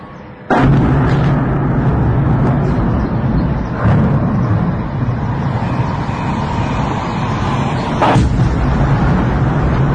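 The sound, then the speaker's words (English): Drones strike targets and explode outside St. Petersburg: three heavy, dull blasts spaced several seconds apart over a continuous low rumbling roar. “That's the sound of Ukrainian drones hitting their targets and exploding just outside St. Petersburg this morning.”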